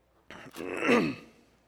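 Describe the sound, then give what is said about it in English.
A single brief throat clearing interrupts a spoken lecture: a short rasping burst that slides into a rough, voiced groan-like tail, then fades. “I got to get my throat cleared, and I'll go on.”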